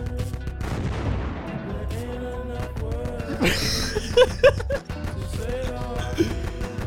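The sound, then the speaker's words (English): Rapid gunfire from a video game makes a dense, continuous stream of sharp shots over a busy game soundtrack, with a few louder bursts near the end. “Rapid fire. I gotta reload.”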